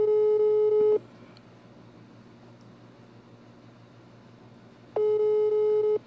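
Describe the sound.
A telephone line tone plays as a call is placed: two loud, steady tones about one second long, separated by roughly four seconds of faint hiss.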